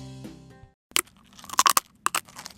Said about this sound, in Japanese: 黒枝豆と枝豆ペーストを使用し焼き上げたせんべいです硬さに特徴がありおやつやお酒のおつまみだけでなくお土産にも最適ですそれでは試食させていただきます